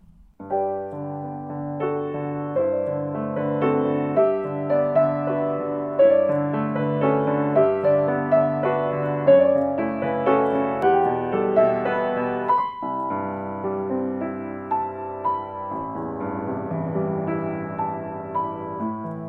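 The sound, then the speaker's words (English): Recorded closing passage of a minuet, the coda ending the whole piece: clear, pitched notes and chords in an even, measured rhythm, moderately soft, moving through a flowing phrase and settling into longer held chords. “a closure of the entire minuet, and it sounds like this.”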